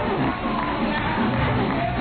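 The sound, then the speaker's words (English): A crowd chants and cheers, a dense roar of many voices at a steady, loud level through a brief moment. “Here's some chanting and cheering.”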